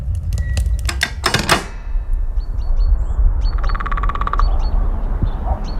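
A woodpecker drumming in rapid, rattling bursts, with sharp taps early on and a second fast, even burst later, mixed with short bird calls over a steady low background rumble.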